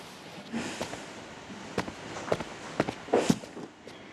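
Footsteps of someone walking away: a string of soft, irregular steps and scuffs over a steady background hiss, a few louder footfalls near the end.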